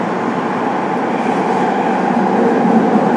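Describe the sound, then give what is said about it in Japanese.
Steady rumble of a Saitama Railway express train running between stations, heard as a continuous, even roar from the carriage that holds at a constant loudness throughout, with no distinct clicks or squeals. “This is the express bound for Miyoshi. We will be stopping at every station until Nega. The next station is Minami-Hato.”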